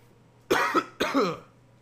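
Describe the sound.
Two loud, harsh coughs from someone clearing phlegm from the throat, the second following about half a second after the first, with nothing else heard.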